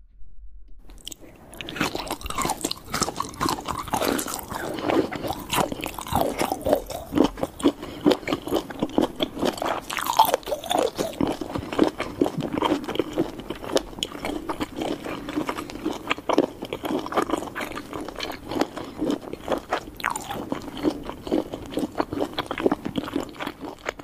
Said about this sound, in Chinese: 来，我们再吃一口最后一口凉拌。